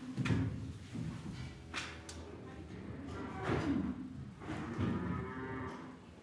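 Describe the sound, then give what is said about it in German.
Dairy cows low in a cattle barn, with several drawn-out moos overlapping and rising over a constant busy background of shuffling livestock. “Die Milchkuh soll gemolken werden und kommt zurück in den Stall zu den anderen Kühen.”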